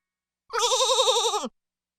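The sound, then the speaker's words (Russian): A single goat bleat, about one second long, loud and alone, with a quavering, trembling pitch that dips slightly at the end. “Коза.”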